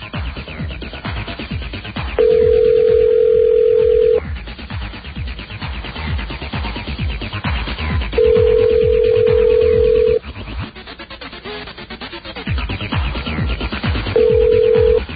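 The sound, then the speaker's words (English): A telephone call to directory information rings through: three steady ring tones about six seconds apart, the last cut short, over a continuous muffled line background. “Did you know that every time you call information, you get the same recording and it sounds like this?”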